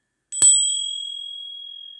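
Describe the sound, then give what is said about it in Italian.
A Zen monastery bell is struck once, giving a bright, high, clear tone that rings on and slowly fades over more than a second and a half, alone without voices. “Nei monasteri zen, durante la giornata si sente il suono di una campana”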